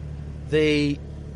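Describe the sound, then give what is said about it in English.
A sports car engine with a sports exhaust starts and warms up: a low idling hum, a sudden half-second rev flare that settles slightly in pitch, then a return to the steady idle. “It just spins the car up straight away and starts the engine, and then you get that great sports exhaust as well.”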